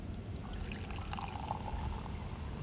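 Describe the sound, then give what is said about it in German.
Sparkling wine is poured into a glass as one faint, steady, gurgling stream with a bright fizzing hiss that lasts the whole short moment. No voices are heard. “du schüttest abermals Sekt nach”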